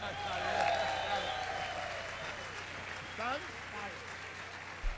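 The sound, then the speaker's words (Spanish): Faint audience applause for a music group from San Javier: a soft, continuous patter of clapping with voices talking over it and a couple of brief louder bumps near the end. “¡Un aplauso!”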